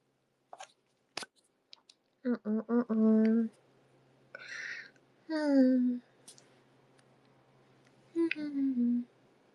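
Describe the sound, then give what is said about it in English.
A few sharp, faint clicks from a lip balm container from Korea being handled and opened, set among stretches of speech. “where's my lip balm? Here it is. The one that I got from Korea.”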